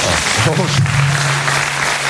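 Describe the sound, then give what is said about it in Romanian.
An audience applauds on cue at a live discussion, responding to a call to clap if deeply disappointed with Nicușor. The clapping is loud and continuous, with a voice briefly sounding over it. “Și să aplaud cei care sunt foarte dezamăgiți din Nicușor.”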